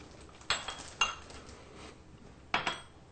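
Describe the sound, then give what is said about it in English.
Carrots and onion dropped into a food processor bowl: a few sharp clattering knocks with lighter rattles after them, quiet and with no talk. “And a little bit of our carrot. Okay, carrots go in there. Okay, and the onion goes in there.”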